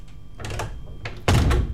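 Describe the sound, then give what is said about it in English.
A door is shut with a single heavy thunk, a sudden low, broad thump that lingers briefly. “Okay, so it cram in, it's not that big, cram in, that's all right. Okay, now you shut the door.”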